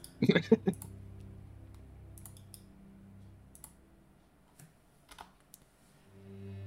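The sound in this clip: Typing on a computer keyboard: a quick, faint burst of clicky keystrokes at the start, then a few scattered taps over a low, quiet hum.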